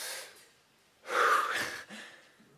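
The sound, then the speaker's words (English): A person takes a deep breath: a long, loud, airy inhale lasting close to a second, with softer breathy noise before and after it. No one speaks. “Take a breath with me.”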